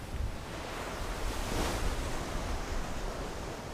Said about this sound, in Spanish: El viento está refrescando.